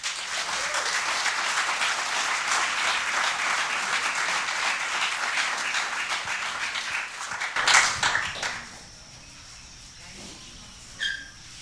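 Audience applause welcoming a kahu to the stage: dense, steady clapping for several seconds that swells briefly, then drops away to near quiet with one short sound near the end.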